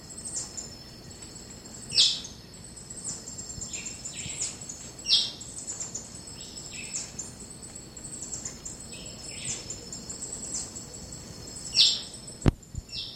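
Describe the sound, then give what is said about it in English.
Harsh chirps of a white-chinned thrush come from a dense, vine-covered thicket. A few sharp, high, scratchy calls stand out over a steady, faint drone of insects. “that's the hopping dick, white chin thrush. The harsh chirp.”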